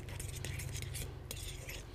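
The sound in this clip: A utensil stirring a flour batter in a bowl makes quick, light clinks and scrapes in a busy, continuous run with no voices.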